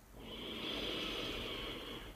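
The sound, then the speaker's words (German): A slow, deep breath through the nose during a guided breathing exercise, a soft, steady airy hiss that holds evenly for about two seconds with no talk. “Machen wir noch einmal über die Nase tief ein und langsam aus.”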